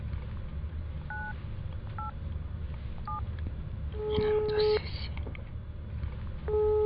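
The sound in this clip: Telephone keypad tones as a number is dialed: a few short, evenly spaced beeps, then longer tones, over a steady low background hum.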